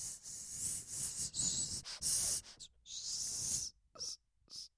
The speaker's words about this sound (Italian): Allora, se io respiro e faccio questo suono,